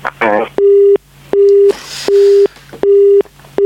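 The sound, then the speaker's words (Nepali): Telephone busy tone after a phone interview line is cut off. A steady mid-pitched beep repeats in even on-off pulses, about four full cycles, after a brief voice at the start. “कुराकानी गर्दा गर्दै हाम्रो telephone सम्पर्क विच्छेद भएको छ. उहाँसँग हामी पुनः सम्पर्कमा आउने प्रयास गर्दैछौँ.”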